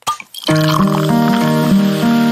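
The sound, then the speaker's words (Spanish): A bottle of Cusqueña beer is opened with a brief hissing burst, then poured in a loud, steady gurgling stream whose tone rings through the fill. “O mientras destapas una cusqueña y la disfrutas con ese plato que tanto te gusta.”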